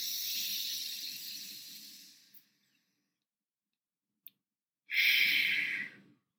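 Deep breathing during a guided meditation: one long, airy breath of about two seconds, a short silence with a single tiny click, then a second, shorter breath. No talking.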